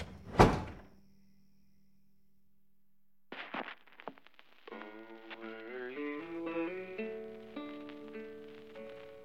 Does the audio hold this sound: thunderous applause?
no

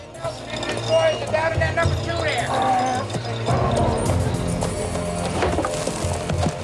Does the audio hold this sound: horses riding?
yes

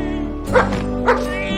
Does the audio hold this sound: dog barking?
yes

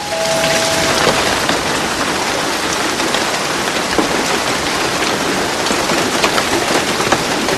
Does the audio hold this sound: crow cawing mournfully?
no

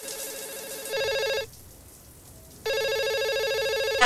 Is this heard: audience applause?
no

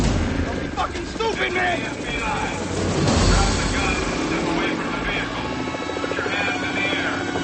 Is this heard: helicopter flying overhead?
yes

